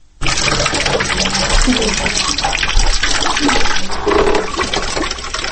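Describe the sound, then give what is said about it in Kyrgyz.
Rainwater collected from a leaking roof being poured out in a one-room flat: a loud, steady rushing splash that starts abruptly and runs continuously for about five seconds. “үйүнүн үстүнөн алып түшкөн сууну төгүп жатат.”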